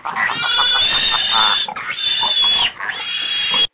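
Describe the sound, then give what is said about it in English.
Pig oinking in a near-continuous run of nasal grunts and squeals, loud and alone, with two short breaks partway through. “See, I didn't feed the pig. That's the problem. It's just looking at me going, I'm not feeding the pig in a week.”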